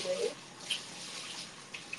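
Water runs into a bathtub filled with cold spring water, making a soft, steady hiss. A few faint drips or splashes stand out briefly along the way.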